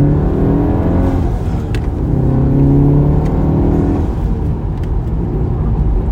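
A car accelerates hard in second gear from the driver's seat, a loud, deep engine drone with a whirring tone that builds and holds steadily over several seconds.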